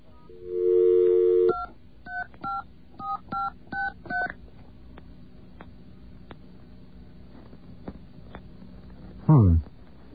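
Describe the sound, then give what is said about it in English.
Touch-tone telephone dialing: a longer steady tone, then seven quick evenly spaced keypad beeps. After a quiet stretch, a brief loud tone sweeps downward in pitch. “All right, let's try entering the full number that we just dialed.”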